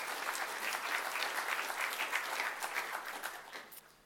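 A church audience applauds as people come forward to share testimonies during a service: dense, steady clapping from many hands that gradually thins and fades toward the end.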